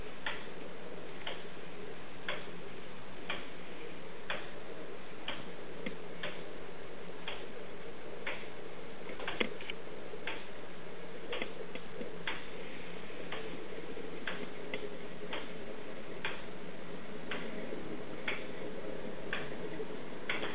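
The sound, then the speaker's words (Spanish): Steady ticking of a handmade, hand-designed clock with weekday wheel, 24-hour hand and moon-phase dial: many crisp, even ticks at about one per second over a faint constant hiss, with no voices. “Este es el reloj que he construido y diseñado todo a mano.”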